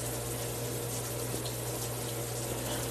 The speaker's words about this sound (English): So I have the hot water on so that I can get some heat.